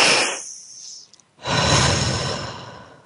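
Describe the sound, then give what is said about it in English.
A deep breath: a short airy intake followed by a long, full, steady exhale that carries loudly to the end, with no talking over it. “And breathe.”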